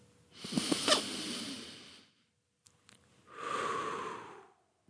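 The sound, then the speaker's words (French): Deep breathing, done slowly as a guided breathing exercise: two long, airy breaths separated by a short pause, each swelling and fading smoothly, with no talking. “je vous demande de le faire maintenant avec moi, de respirer.”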